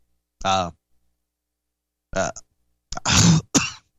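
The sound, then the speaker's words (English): A person coughs and clears their throat in a few short, rough bursts separated by silence. The last two bursts come close together and are louder. “sorry about that. Coughing”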